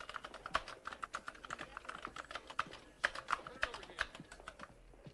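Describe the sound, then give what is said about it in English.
Computer keyboard typing in a police station office: many quick, irregular clicks and key taps in uneven bursts, with a few louder keystrokes standing out throughout. “At the police station, Audrey, typing on a computer, glances into the squad room.”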